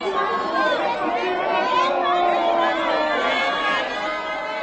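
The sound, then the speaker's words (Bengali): Protesters chant at an anti-nuclear march in Tokyo, many overlapping voices forming a loud, continuous crowd din with no pauses. “বিক্ষোভকারীরা দু জায়গাতেই ধ্বনি দেয়।”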